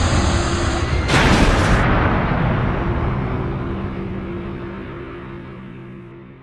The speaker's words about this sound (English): we had no choice but to crash land on the Clyde, that garbage dump of a moon